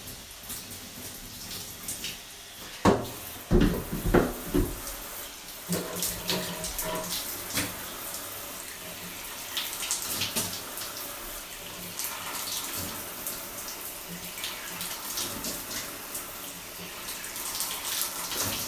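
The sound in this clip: Water runs steadily from a tap while someone washes, giving a continuous rushing hiss. A few louder splashes break through early on, then the even flow carries on to the end.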